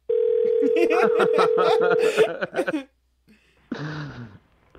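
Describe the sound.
A steady telephone tone sounds on an outgoing call to a support line, with a voice laughing over it. After a short pause, a person starts talking.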